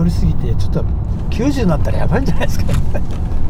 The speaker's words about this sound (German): Wir fahren über die berühmte Kreuzung in Shibuya und dann sind wir auch schon da.